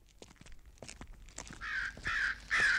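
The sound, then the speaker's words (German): Crows caw on a night-time city street in Chicago: three harsh, rasping caws in quick succession, each louder than the last, after a quieter opening. “Ja, Krähen”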